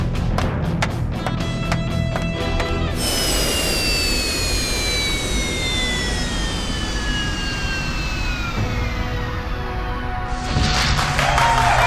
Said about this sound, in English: He's using main thrusters as braking rockets. He's stopping. He's turned around and he's landing in the fighter bay under his own control.